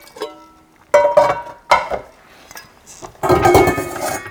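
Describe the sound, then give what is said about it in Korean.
Metal pot lids clatter and clink as they are tried on pots to find the matching ones. A few short clanks are followed by a longer, louder rattle at the end. “맞는 뚜껑들을 지금 조합하고 있어.”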